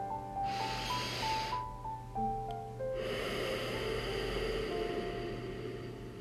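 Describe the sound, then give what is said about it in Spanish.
A deep breath in, a long, airy draw of air over soft sustained music with a gentle melody, followed after a short gap by a second long breath that continues to the end. “Relájate. Y respira profundo.”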